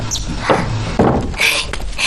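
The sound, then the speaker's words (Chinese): A door being closed: a short wooden thud stands out amid a few other brief bumps and hissy rustles. “先把门关上。”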